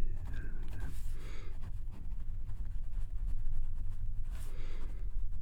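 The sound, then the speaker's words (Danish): A pen writes a name on paper, with a steady scratchy rustle of strokes over a low, constant background hum. “Jeg må bare skrive navnet ditt.”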